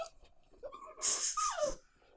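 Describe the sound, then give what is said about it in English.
A dog gives a short, breathy snort and snuffle, with a brief whine that slides downward in pitch. The sound is fairly soft and heard alone. “Ooh, doggo. Hey, you're our mascot.”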